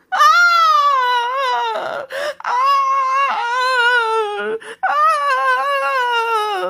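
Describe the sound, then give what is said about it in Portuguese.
A girl crying loudly: long, sustained wailing sobs with a wavering, bending pitch, broken by a few short catches of breath between wails. “a menina foi de novo na janela lá do palácio, e começou a chorar bem alto.”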